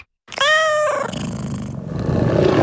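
A single tiger roar: a loud, tonal cry that starts abruptly after a moment of silence, then trails off into a rough, breathy growl.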